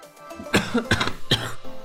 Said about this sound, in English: I'm so sorry for coughing